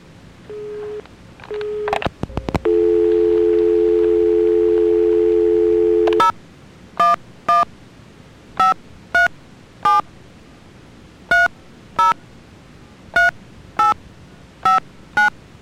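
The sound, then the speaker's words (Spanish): Telephone tones after a dropped call: brief tones at the start, then a steady dial tone lasting several seconds, followed by many short, clear beeps in an uneven pattern. No voices are heard. “Que parece se cayó la llamada.”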